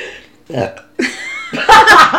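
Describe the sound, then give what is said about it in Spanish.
A burp let out during chatter: a few short, throaty voiced bursts, the last and loudest one rough and rich in overtones. “Me he intentado tirar el eructo.”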